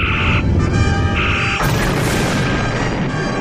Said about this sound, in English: The phasers are firing, sir.